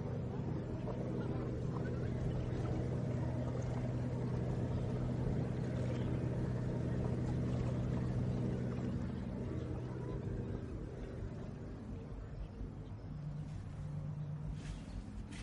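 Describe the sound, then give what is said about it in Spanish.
Engines of boats on a river as a yacht passes a larger boat heading the opposite way: a steady low motor drone with a humming tone that eases slightly in loudness in the later part. “Un yate navega en sentido contrario al barco.”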